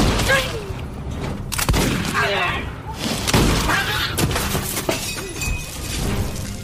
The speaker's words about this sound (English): One of them just bumped over the oil lamp.